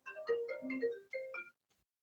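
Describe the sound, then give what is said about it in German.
A telephone rings with an electronic ringtone, a short melody of several stepped, clear tones played fairly quietly. It stops abruptly after about one and a half seconds. “Jetzt hat jemand angerufen.”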